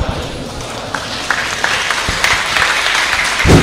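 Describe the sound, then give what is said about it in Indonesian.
An audience in a mosque applauds after a religious lecture, with steady, even clapping that holds at moderate loudness and swells briefly near the end. “karena kita di masjid mungkin sebenarnya lebih baik bukan tepuk tangan ya, tapi takbir”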